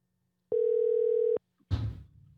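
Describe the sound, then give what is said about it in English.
A telephone line gives a single steady electronic tone for under a second while a call is being placed, followed after a short gap by a brief burst of noise. “Let's give him a call and see what he thinks.”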